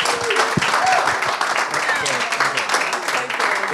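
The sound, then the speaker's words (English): An audience applauds at a live event honouring a golfer, a dense, steady patter of clapping hands that stays loud throughout, with voices mixed in. “Ladies and gents, put your hands together, please”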